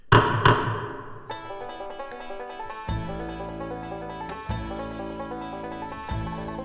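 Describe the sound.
Two sharp knocks of a gavel ring out in quick succession at the start, then a soft melodic music passage takes over with several repeated chord swells.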